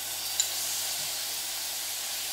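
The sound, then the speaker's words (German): Sugar sizzles as it melts into caramel in a pan, giving a faint, steady hiss with no other sound over it. “Schön, wie sich der Zucker in Wohlgefallen, respektive in ein Karamell auflöst.”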